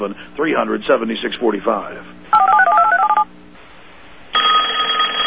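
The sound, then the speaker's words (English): A telephone rings in two electronic bursts after a voice speaks: first a warbling trill, then a steadier tone. “Does this sound bring on a sudden onset of fear? A fear of not knowing who's on the other end? Do you avoid picking up the phone, knowing it's just going to be another harassing phone call from a debt collector?”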